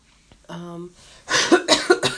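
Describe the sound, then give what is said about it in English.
A short voiced sound is followed by a few hoarse coughs in quick succession, each a rough, breathy burst. “sorry, y'all, for coughing”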